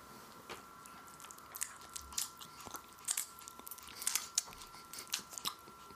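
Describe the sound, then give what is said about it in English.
Faint, wet mouth sounds of saliva, like ASMR: many small, irregular smacks and clicks scattered over a steady, quiet hum. “Lots of saliva there, ladies and gentlemen. Just like that ASMR.”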